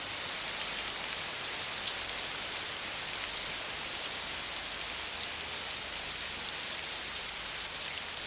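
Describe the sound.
Steady rain falls throughout, a dense, even hiss of countless drops that never lets up, with no other sounds.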